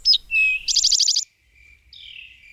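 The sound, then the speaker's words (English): An Eastern towhee sings on Nantucket. Clear whistled opening notes lead into a rapid, buzzy trill, and after a short pause comes a softer, sliding call. “But if you listen carefully, you can still hear the sound of an old glacier in the voice of a Towhee.”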